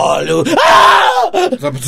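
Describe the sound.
A person screaming: a loud, drawn-out voiced cry that swells and then breaks off, with other vocal sounds right before and after it.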